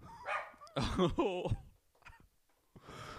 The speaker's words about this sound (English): Oh, sorry about the dog barking.